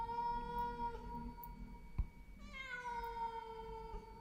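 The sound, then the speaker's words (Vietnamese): A cat wails mournfully in a yard, giving long, drawn-out, wavering cries that hold a steady pitch and then shift lower partway through. A single sharp knock cuts in near the middle. No one speaks. “con mèo lúc nãy tưởng đã đi, thế nào mà giờ nó lại quay lại kêu lên mấy tiếng thê thiết.”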